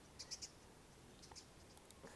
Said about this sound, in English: And so what I can share with you right now, what you might be able to hear, are some frogs